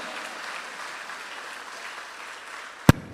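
A church audience claps hands during a sermon, a steady, soft wash of many hands that holds evenly, then is cut by one sharp loud knock, after which it falls nearly silent.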